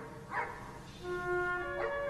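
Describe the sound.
A dog barks in exasperation: two short, sharp yips with a steady tonal whine between and after them, all quiet.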